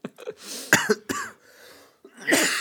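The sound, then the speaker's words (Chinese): A person coughing hard in a severe fit: several harsh, throaty bursts in uneven groups separated by short pauses, loud and on their own with no talking. “你这咳嗽太严重了”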